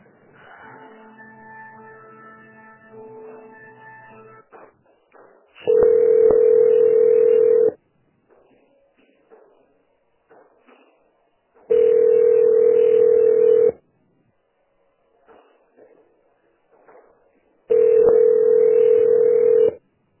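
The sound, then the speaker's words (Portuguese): Telephone line tones sound while a call is transferred: a faint pattern of stepped tones, then three long, loud, steady hum-like tones of about two seconds each, separated by quiet gaps. “Agora só um instantinho, tá bom? Vou estar transferindo a ligação.”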